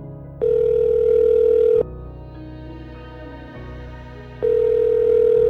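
Ringback tone of an outgoing phone call: two long, steady, mid-pitched rings separated by a few seconds of pause, over a low droning background bed.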